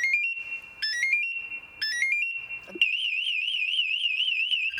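Firefighter's motion-sensing alarm device beeping: bursts of rising chirped beeps repeat a few times, then give way to a continuous, loud, high warbling tone as the alarm grows more intense.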